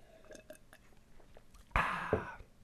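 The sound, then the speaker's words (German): A sip of Pepsi Max begins with a few soft clicks, then a sudden louder airy slurp and gulp that lasts under a second before fading. “Ich nehme jetzt einen Schluck von meiner Pepsi Max.”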